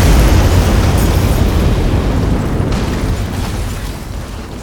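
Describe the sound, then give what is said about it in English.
An explosion destroying the Humber Bridge, a loud, dense roar and rumble that carries on without a break and slowly fades. “So, yeah, it was us. We destroyed the Humber Bridge.”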